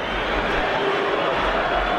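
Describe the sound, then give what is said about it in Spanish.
Celta football fans in a stadium make a continuous, even roar of crowd noise with thin whistling threaded faintly through it. “Hay algunos pitos, estos aplausos que son los aficionados del Celta, pero más indiferencia.”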